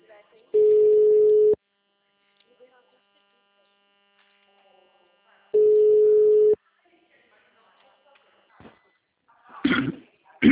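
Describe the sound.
An outgoing telephone call rings back with two long, steady mid-pitched tones of about a second each, separated by a long silent gap; a brief voice follows at the end.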